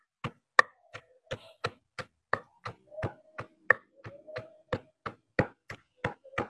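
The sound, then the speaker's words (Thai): Ingredients are pounded in a mortar to release their colour, giving a steady series of many sharp, evenly spaced knocks with short gaps of quiet between them. “ไม่ต้องตำแหลกมากก็ได้นะคะประมาณนี้นะคะเนี่ยเขาก็จะมีน้ำสีเขาออกมา”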